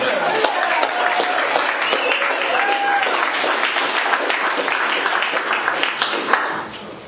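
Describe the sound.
Warm applause from an audience at a recovery meeting welcoming the featured speaker, a dense, steady patter of clapping that keeps up for several seconds before tapering off.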